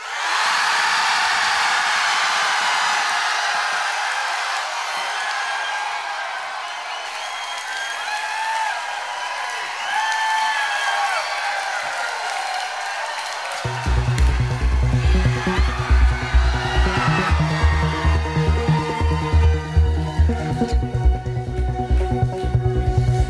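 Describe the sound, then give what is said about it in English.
Cheering and applause from a live studio audience in San Francisco, a loud, sustained roar with whoops and whistles, then giving way to music with a steady pulsing beat for the final stretch. “So will you please let the people in Europe know what an audience in San Francisco sounds like?”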